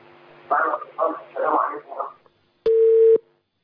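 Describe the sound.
A single steady telephone tone announcing an incoming call sounds for about half a second, loud and even, right after a stretch of speech.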